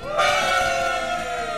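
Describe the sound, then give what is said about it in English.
Live studio audience cheering: a brief, loud, sustained roar of many voices that swells quickly and stays fairly even before tapering slightly. “This week, we're answering your emails about all the mob stuff that we missed. Also, live in studio audience!”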